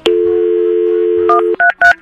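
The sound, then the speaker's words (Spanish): A telephone number is dialed with touch tones: a steady dial tone hums, then a few quick beeps follow. “¿Está listo para marcar”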